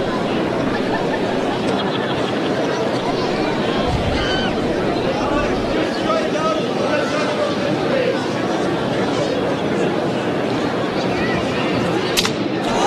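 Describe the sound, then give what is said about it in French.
A baseball bat shatters on contact with the ball in the top of the ninth inning of a Kane County minor-league game: one sharp crack near the end, over a steady wash of crowd hubbub. “Bâton fracassé sur un bon saisi par Lynch.”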